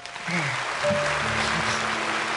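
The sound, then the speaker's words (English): Studio audience applause like a standing ovation: a burst of clapping swells in after a brief moment, then holds as an even, moderately loud wash of many hands until the end. “The studio audience loved it. Standing ovation.”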